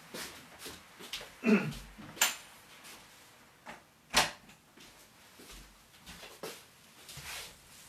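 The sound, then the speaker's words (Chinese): A door is shut, with a few soft knocks and thuds spread through the quiet stretch, the strongest near the middle. “稍等一下，我把这个门关上，有点噪声。”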